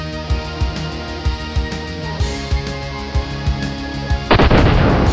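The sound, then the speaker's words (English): Police fire guns into the air to contain protesters on a road near Kabul. Many sharp cracks come at a fairly steady pace and end in a louder, dense burst of shots, all over constant background noise. “Police were shooting into the air to contain the protesters.”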